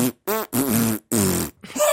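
Buzzy, tonal farting noises attempt a TV theme tune as five loud bursts with shifting pitch, like a crude melody, separated by short silences and with no talking.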